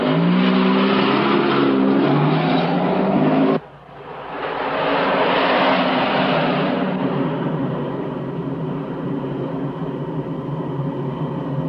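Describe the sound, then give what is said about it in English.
A car carrying kidnappers drives away, its engine giving a loud, steady roar that drops briefly about a third of the way in, then swells back up and holds as the vehicle accelerates. “Peter's kidnappers drive into a police roundup of prostitutes.”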